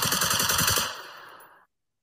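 Rapid automatic gunfire from the Mandalay Bay shooting, a dense burst of many loud shots lasting just under a second, followed by a ringing tail that slowly fades to silence.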